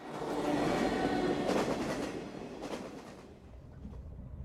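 A train runs on railway tracks, heard as a continuous loud rumbling roar with a few faint clanking hits from the wheels, easing slightly toward the end.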